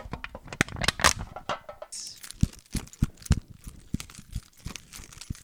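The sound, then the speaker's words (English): Paper crumpled up in the hands, a loud run of many sharp crinkles, crackles and rustles in an irregular rhythm, with no talking. “This is us crumpling up the episode. Throw it in the trash. Put it in the recycler.”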